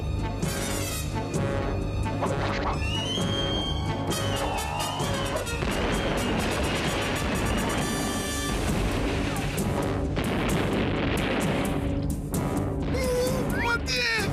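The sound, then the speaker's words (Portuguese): Cannons fire from a ship in an animated mermaid film: heavy booms and crashing impacts burst through dense, continuous orchestral score, loud from start to finish. “Finalmente vou poder disparar e... Fogo!”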